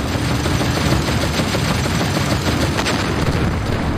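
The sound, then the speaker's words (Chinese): German anti-aircraft guns fire on American Pershing tanks approaching a bridge, in rapid, continuous bursts that rattle steadily throughout. The gunfire is dense and loud, with a deep rumble beneath it. “美军坦克刚刚靠近大桥，就遭到了德军高射炮的火力袭击。”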